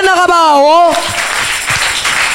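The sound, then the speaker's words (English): A church audience breaks into clapping just after a voice calls out briefly. The applause is fairly dense and continues to the end. “Why don't you clap for the Lamb of God?”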